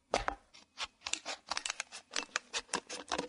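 Scissors snip through a plastic bottle to cut a hand's-width tube, making many crisp, crackling cuts in an irregular rhythm, fairly quiet.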